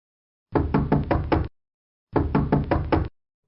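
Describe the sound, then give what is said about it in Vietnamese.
Pounding knocks on a room door early in the morning, heavy enough to shake the floor: two loud bursts of several rapid thuds each, separated by a short silence. “Đột nhiên bị tiếng đập cửa làm cho giật mình.”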